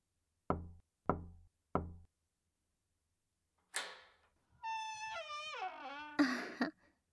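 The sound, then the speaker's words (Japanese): Three slow, evenly spaced knocks on the door of a private room, loud and alone with silence between them, followed later by a few other noises. “扉をゆっくり3回ノックして。そしたら開けるから。”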